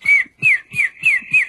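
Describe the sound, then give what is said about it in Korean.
A person whistles an imitation of a bird call: five short, clear, high whistled notes in a steady rhythm, each gliding slightly downward, with no talking. “개인기로 나 새 소리 잘 낸다 이러면 그런 것도 괜찮겠네요.”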